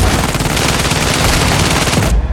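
A dense, continuous crackle of rifle fire, a volley loosed on command at close range of 30 to 40 meters, rolls without a break for about two seconds and then cuts off abruptly into silence.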